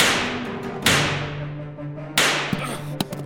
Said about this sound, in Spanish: Con el seguro quitado, disparo a la puerta.